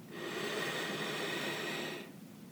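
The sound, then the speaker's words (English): One deep inhalation during a guided relaxation exercise, a steady airy hiss through the nose or mouth lasting almost two seconds before it stops abruptly, with no talking. “Deep breath in.”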